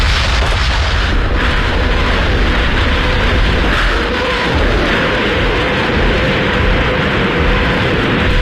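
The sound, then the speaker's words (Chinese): Massed artillery barrage of about 3,000 Soviet field guns and rocket launchers firing at once: a loud, continuous thunderous roar where individual blasts merge into one unbroken rumble across the whole stretch. “凌晨五点，苏军3000门加农炮和火箭炮同时对德开火。”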